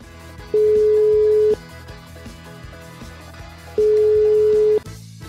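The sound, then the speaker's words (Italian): A phone ringback tone sounds while someone is being called: two long, steady single-pitched tones of about a second each, spaced well apart over a constant, busy background. “Se volete, io posso pure provare a chiamarlo adesso, ragazzi.”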